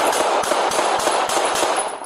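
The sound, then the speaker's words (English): Rapid burst of gunshots fired at close range, with many sharp, loud cracks in quick succession over a dense, continuous roar of noise. “Yes, yeah, several shots. I'll play it again.”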